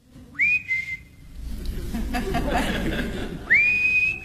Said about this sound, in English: Someone's whistling outside.